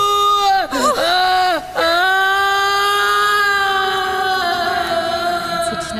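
A woman lets out a long, loud, high-pitched scream that wavers and breaks briefly at first, then holds a steady, sustained pitch.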